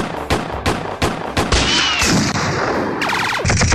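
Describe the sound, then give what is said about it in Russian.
Loud gunfire from three shooters with revolvers firing at once on a veranda: several sharp separate shots, then dense overlapping blasts and a rapid rattling burst near the end. “И тотчас все трое открыли стрельбу на веранде, целясь в голову Коровьеву и Бегемоту.”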